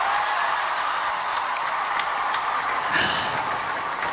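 Sustained applause at the Paris Opera's Opéra National de Paris after a ballet performance, a dense, even roar of many hands clapping that stays level throughout.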